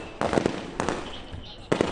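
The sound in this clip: Covering gunfire during a military assault drill, as one team fires to draw attention while others close in. Three short, loud bursts of sharp cracking shots are separated by brief gaps over a steady noisy background.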